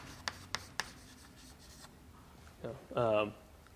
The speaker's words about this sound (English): if we were to kind of visualize or actually draw out the XML that this is really built against, right?